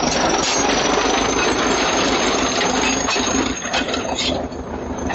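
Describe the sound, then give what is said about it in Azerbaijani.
Loud, continuous rumbling and grinding from a tractor clearing fallen stones off a village road at the village entrance, holding steady before easing slightly near the end, with no voices. “Elə girəcəkdə cəmaat yığışıb yolu təmizləyən traktoru tamaşa edirdi.”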